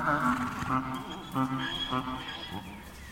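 A mule, a cross of mare and donkey stallion, gives a plaintive cry after leaving its herd on a gravel yard at the hay rack. The cry comes as several wavering, harmonic honking bursts over a dense background.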